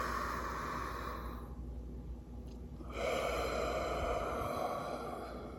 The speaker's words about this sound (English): Letting all that go and just kind of loosey-goosey with the body. Inhaling one more time.